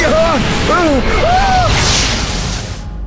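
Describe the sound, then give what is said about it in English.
A fireball shot in a fantasy audio drama: a broad, roaring whoosh swells after urgent shouting voices, then fades out. “Try shooting it at her! It's a fireball! Stop it! Stop it now!”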